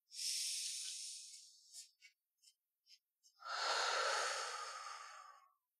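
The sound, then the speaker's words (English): A deep cleansing breath taken during a guided breathing exercise: a long, airy, hissing inhale, then a few short breathy puffs, then a long, fuller exhale that trails off into silence. “let's take a nice, big, deep cleansing breath all together here”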